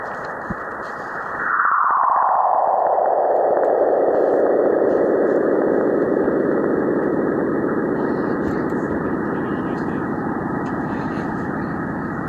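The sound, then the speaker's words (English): Sonified Cassini spacecraft plasma wave recording of a solar radio burst: a loud, continuous band of hiss swells in and then slides steadily downward in pitch, from a high whistle to a low rushing tone, over about ten seconds. “The frequency drops from 10 megahertz to 50 kilohertz over a 3-hour period. So here we go, plasma wave recording from Cassini.”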